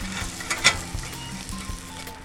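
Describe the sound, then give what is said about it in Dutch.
Three strips of bacon sizzle in a frying pan: a steady, bright crackling sizzle throughout, with one sharper burst of spitting early on. “Huppakee. Daar gaat het spek. Zo heb ik drie van die, van die lekkere reepjes.”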